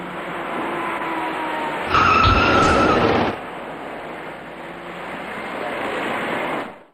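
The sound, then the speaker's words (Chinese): A fast silver passenger car skids on a multi-lane road, its tires letting out a loud, sharp screech lasting about a second and a half over constant road and traffic noise. “转身过后，这位骑车人被一辆快速开来的小客车撞翻在路面上”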